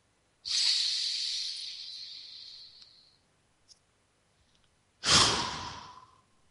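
Deep breathing during a guided breathing exercise: one long, steady airy breath lasting nearly three seconds, a pause, then a shorter and stronger breath. There is no talking.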